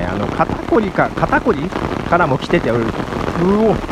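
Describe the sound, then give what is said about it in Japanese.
Heavy rain makes a dense, steady hiss that runs throughout, partly masked by a voice. “雨すごいです。”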